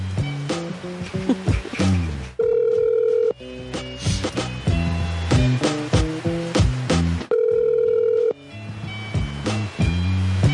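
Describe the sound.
A steady telephone tone rings out twice, each time for about a second, set among busy, melodic, music-like sounds with no talking.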